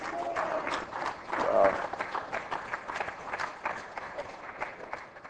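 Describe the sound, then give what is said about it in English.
Audience applause at a church service, a dense patter of clapping that swells around the middle and then carries on steadily at a moderate level before thinning slightly toward the end. “I thank you for the applause.”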